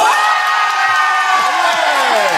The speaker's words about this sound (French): Que ceux qui pensent que Jérôme n'est pas coupable fassent du bruit.